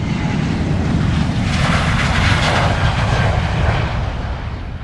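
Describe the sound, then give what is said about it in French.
Jet-like roar of an airplane taking off, a loud, broad rumbling engine noise that holds steady for several seconds and eases slightly at the very end, with no voices over it. “En deuxième partie, nous allons décoller ensemble pour la Thaïlande, première étape de mon exploration autour du globe.”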